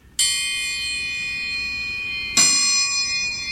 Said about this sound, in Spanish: Y así suena el triángulo.